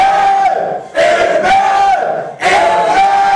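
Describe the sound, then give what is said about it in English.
A church audience shouts amen, giving three loud, sustained collective shouts in quick succession, each a roaring mass of voices with brief dips between them. “Somebody shout your amen 3 times.”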